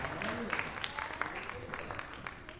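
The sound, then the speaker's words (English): Faint applause from an audience for the Clovis High jazz band: a dense, steady patter of clapping with a few sharper claps and some voices mixed in. “And give me a big hand.”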